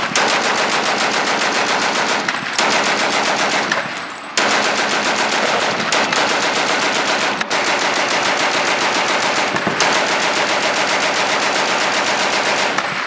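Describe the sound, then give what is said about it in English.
Rapid automatic fire from a Maxim machine gun, the 1884 design used by British and Russian forces. A loud, dense stream of shots runs in long sustained bursts, broken only by a few brief pauses. “Another machine gun used by both the British and the Russians, though somewhat outdated at this point, was the Maxim machine gun.”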